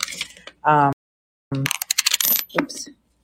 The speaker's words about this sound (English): here's some more coins and stuff that's going into one of them.